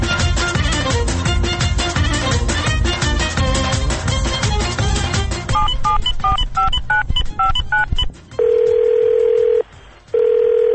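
A telephone rings with a call from an unknown number: a quick run of short electronic beeps, then two long, steady, mid-pitched ring tones near the end.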